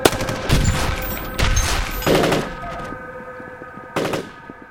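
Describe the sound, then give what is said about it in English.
Gunfire from guns shooting at fleeing stragglers around a tower: several loud, rapid bursts over a continuous noisy backdrop, the last burst near the end before the sound tails off. “Just keep shooting!”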